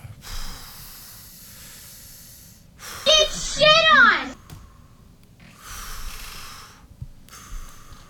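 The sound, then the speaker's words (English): Someone takes a few deep breaths, airy hissing inhales and exhales separated by short pauses, with one louder, wheezy breath carrying a thin whistling tone. “Let's take another one more deep breath. Let me take another.”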